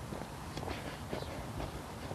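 Footsteps along a hiking trail, a few soft, steady steps crunching faintly with no talk over them.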